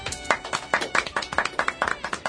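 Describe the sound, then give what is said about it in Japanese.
Clapping comes as many sharp, crisp hand claps at a quick, fairly regular pace. The bursts are of similar loudness, with brief gaps between them, throughout. “拍手。”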